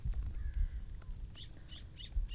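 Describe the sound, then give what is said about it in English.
A tiny bird chirping: a few short, high, faint chirps in the second half, spaced unevenly over a low background rumble. “You would be correct. It is a tiny bird.”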